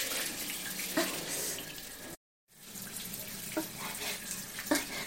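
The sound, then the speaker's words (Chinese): Water runs from a faucet whose valve won't close, a continuous broad rushing hiss with small splashy accents, cut off briefly by a moment of silence before the steady flow resumes. “是不是因为这个水龙头的阀门关不上了呀？”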